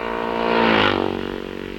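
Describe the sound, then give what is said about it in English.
An AJS racing motorcycle passes during a race, its engine note swelling to a peak and then fading as it goes by. The steady drone holds throughout with no voices. “David Williams, number 14 on his AJS, has completed 11 laps”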